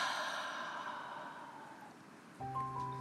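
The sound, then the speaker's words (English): A deep breath is released slowly through the mouth as a long, soft, breathy exhale that fades out. Steady sustained tones come in near the end. “And another deep breath in and release through your mouth.”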